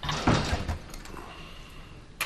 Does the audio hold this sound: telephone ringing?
no